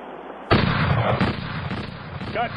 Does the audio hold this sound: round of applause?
no